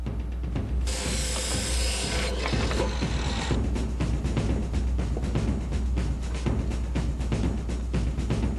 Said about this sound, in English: and then what we'll do is we'll just bolt a board between the two